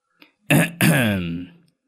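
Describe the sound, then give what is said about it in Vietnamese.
A man clears his throat: a tiny click, then a short gruff burst and a longer, voiced rasping rumble that fades out, loud and alone. “Một hồi lâu sau thầy mới đằng hắng”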